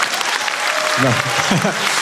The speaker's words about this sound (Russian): Вы хлопаете, как мой риэлтор прям.